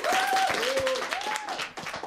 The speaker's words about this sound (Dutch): Een groot applaus voor onze eerste expert, Indy.